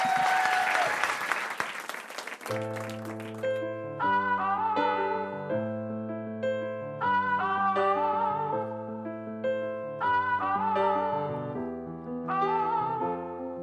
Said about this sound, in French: Ce type est absolument incroyable, je vous demande de lui faire une ovation car c'est une émission qui lui est consacrée.